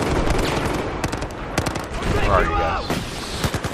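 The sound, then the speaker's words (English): Rapid bursts of gunfire from an attacking helicopter in a video game, sharp cracks arriving in quick, uneven clusters at a steady loud level. “Oh god, there's a helicopter shooting us.”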